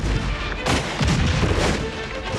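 A few heavy gunshot blasts fired on an order to fire crack through a dense, continuous roar of battle noise. They land in quick succession at irregular intervals.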